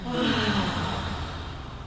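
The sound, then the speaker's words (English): A long, deep breath drawn in and let out during a guided relaxation exercise: a steady, airy rush of breath that fills the whole clip with no talk over it. “Deep breath in. And exhale.”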